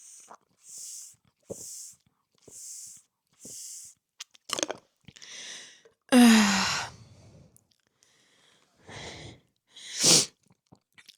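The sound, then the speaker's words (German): Sips of woodruff-flavoured Durstlöscher iced tea: a few soft, evenly spaced gulping swallows, then a loud, breathy sigh of relief and some quieter breaths, with no talking. “Ich trinke jetzt erstmal einen Schluck. Ich habe mir einen schönen Durstlöscher gekauft.”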